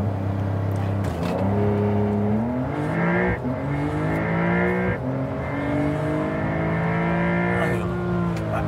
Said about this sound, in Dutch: We hebben nu waterkoeling, 2 turbo's. Zal ik even launch control doen?